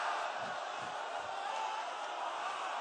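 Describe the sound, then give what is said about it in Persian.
An audience shouts together on cue, one loud, sustained collective yell of many voices that holds steady without a break. “ها داد بزنید الکی.”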